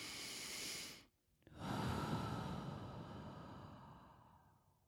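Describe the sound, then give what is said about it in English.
Deep breathing alone with no talk: a long airy rush of breath, a brief pause, then a longer breath that slowly fades. “Seriously, take one with me right now. Are you ready? Deep breath in.”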